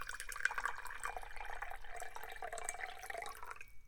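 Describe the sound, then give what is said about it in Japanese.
Tea is poured into a cup, a faint, continuous trickle of liquid with small splashy drips that runs steadily and then stops just before the end. “ではお茶をカップに注いで”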